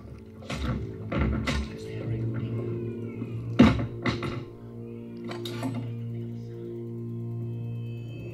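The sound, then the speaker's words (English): A baby cries in a scene from the 2018 film Halloween, thin wailing bursts repeating over a steady low hum, with a few clinks and thuds among them. “And that baby crying, everybody, is Jamie Lee Curtis.”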